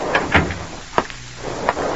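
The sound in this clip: A door opening into an apartment, heard as a few sharp, latch-like clicks and knocks spaced apart over a low, dull background, with no voices.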